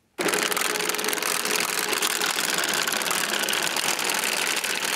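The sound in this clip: A machine fitted with a large two-metre chain bar and cutting chain starts abruptly from silence and keeps running with a loud, dense, steady mechanical roar.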